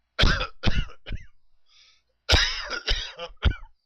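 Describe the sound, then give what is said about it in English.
A man's voice imitates the human-like coughing of an unseen creature believed to be Bigfoot, with a few harsh, throaty cough bursts in two short bouts separated by a brief pause. “The coughing was just like a human being. It was”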